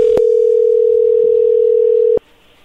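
Telephone dial tone before a call is placed: a loud, steady single-pitched hum lasting about two seconds, marked by two sharp clicks, one near its start and one as it cuts off, leaving only a low hiss.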